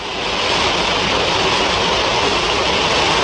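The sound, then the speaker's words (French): Water of the Trevi Fountain in Rome rushing and splashing as a steady, dense hiss that swells in at the start and then holds at an even loudness, with no voices. “Alors vous l'entendez cette fontaine, la fontaine de Trevi, bien sûr, une magnifique fontaine, endroit où les gens jettent des pièces de monnaie.”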